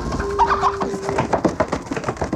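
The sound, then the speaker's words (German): A chicken flaps its wings as it bursts from a person's hand and runs through a kitchen: a quick series of irregular, fluttering beats with bird-like calls mixed in, loudest in the second half. “Das Huhn, das Herr Müller hält, fährt plötzlich hoch aus Herrn Müllers Hand und rennt flügelschlagend durchs Zimmer.”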